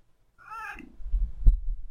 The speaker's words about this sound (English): Can I kiss my cat? Aren't I allowed to kiss my cat?